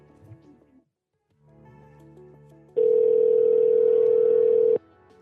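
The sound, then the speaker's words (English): A telephone dial tone sounds while calling a home phone: one loud, steady mid-pitched tone holds for about two seconds, following quieter low sounds. “I'm trying the home phone first as well.”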